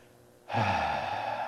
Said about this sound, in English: So let me just take a deep breath.